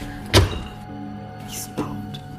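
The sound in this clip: Two large cupboards standing at the end of a cellar room are opened, giving two dull wooden thunks. The first knock is sharp and loud near the start, the second softer, over a faint steady hum.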